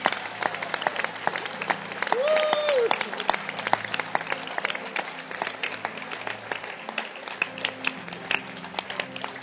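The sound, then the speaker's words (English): Church audience clapping their hands during a prayer service: dense, continuous, rhythmic clapping from many people throughout, with voices faintly underneath. “Can you clap your hands first before you lift your two hands?”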